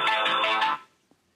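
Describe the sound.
A telephone ringing tone sounds while a call is transferred: one bright, buzzy burst that holds steady for under a second, then cuts off into near silence with a faint click after it.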